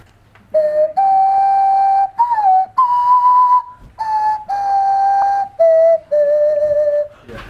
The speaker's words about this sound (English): You're going to take a deep breath and blow across the pop bottle while this is in front of your mouth and wiggle your tongue, and that's all you do. Okay, that's the noise.